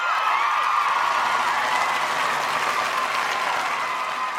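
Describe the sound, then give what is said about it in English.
A studio audience at a talk show applauds after the holidays, a steady, dense wash of clapping hands that stays even from start to finish. “Oh, that audience is all fired up after the holidays.”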